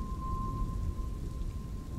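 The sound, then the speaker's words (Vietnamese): Heavy rain pours down steadily in a storm, a dense hiss over a low rumble that continues without a break and stays fairly faint throughout. “Sau mấy hồi sấm đì đùng thì một trận mưa nặng hạt trút xuống.”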